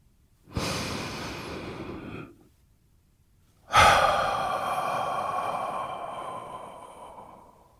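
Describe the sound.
Deep breath drawn in and let out: a long, airy inhale, a brief pause, then a louder, longer breathy exhale that slowly fades, with no other sound.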